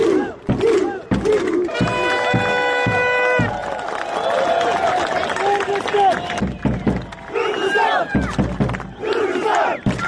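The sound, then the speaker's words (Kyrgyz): Stadium crowd noise after a Kyrgyzstan national team's 1-0 football win, with loud cheering, shouting and scattered clapping. Voices talk over the steady roar throughout. “Оюн бүткөн соң көрүүчүлөр жеңүүчүлөрдү салттуу кол чаалуулар менен узатышты.”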